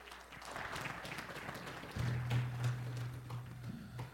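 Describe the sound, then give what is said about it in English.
Audience applause welcoming a family to the stage, a steady wash of many hands clapping at moderate volume, with a low steady hum joining about halfway through. “Well, give them a hand.”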